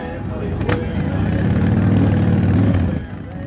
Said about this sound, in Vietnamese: Âm thanh chói tai phát ra từ những chiếc Harley Davidson láng bóng cùng tiếng nhạc đồng quê đã đem lại cho buổi họp tại Long Island của cựu chiến binh đi mô tô này một cảm giác lễ hội.